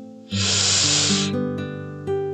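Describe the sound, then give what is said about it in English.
A deep breath drawn in during a guided meditation: one long, airy, hissing inhale lasting about a second, heard over soft sustained background tones that continue afterward. “as we shift from our poetry reading into our meditation, I would like us to take a deep breath in together”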